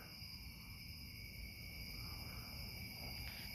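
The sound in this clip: Insects chirr at night at the edge of a wood, a steady high-pitched cricket-like chorus holding continuous layered tones throughout, with a faint low rumble underneath.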